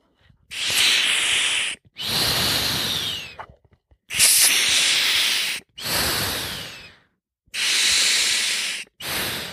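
Breathing in through a full-face mask, version 2.0, makes loud, rough hissing rushes of air, each lasting over a second and separated by short silent gaps, repeating steadily with no talk.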